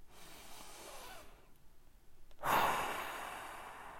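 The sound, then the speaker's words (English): Deep breathing during a short meditation exercise: a soft, airy inhale followed by a loud, long, breathy exhale, with no talk. “I want you to take 3 deep breaths and then open your eyes.”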